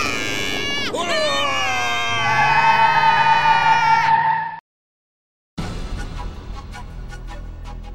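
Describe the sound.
Sustained high squeal of tyres as a car skids during a chase, a strong ringing whine holding for about four seconds before cutting to silence, then rough noise resumes.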